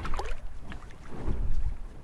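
A small boat rocking on water, with low, buffeting rumble and wind-like noise that swells and eases in uneven surges. No voices are present.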